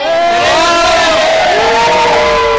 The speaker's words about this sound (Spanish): Y empezamos la temporada saludando porque hoy tenemos público.